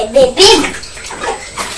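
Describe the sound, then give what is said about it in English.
Bathwater splashes and sloshes in uneven bursts as a young child is rinsed in the tub, with a child's voice and adult talk over the water. “Let's just rinse your back.”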